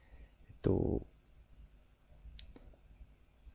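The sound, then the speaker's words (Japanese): A computer mouse button being clicked, with one louder click near the start followed later by a couple of much fainter clicks, all quiet against near silence. “今これあのマウスをこうポチッと押して、左クリックをして、手を離さないでこのまま E のところまで移動するとこう、まとめて指定できるんですね。”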